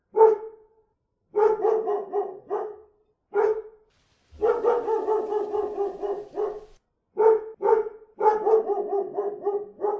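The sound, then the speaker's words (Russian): Hoarse barking from a neighbour's dog in the flat across the landing, set off by insistent ringing at a door. Many rough barks come in quick bursts with short pauses between them, loud and without talk. “Настойчивый звонок в Лилину дверь заставил соседскую собаку из квартиры напротив залиться хриплым лаем.”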